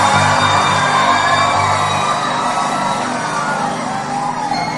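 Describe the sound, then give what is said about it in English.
A church audience applauds and cheers to welcome a preacher, a dense, steady crowd roar that carries on throughout and eases slightly toward the end. “put our hands together to welcome the anointed servant of God. Hallelujah.”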